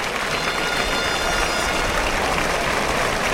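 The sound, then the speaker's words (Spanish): A bullring crowd gives a bullfighter a sustained ovation, a dense, even roar of clapping that holds steady and loud throughout without a break. “Saluda una ovación.”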